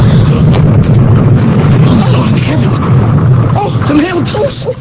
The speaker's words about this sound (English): It blew up. Oh, it exploded. It could have been us.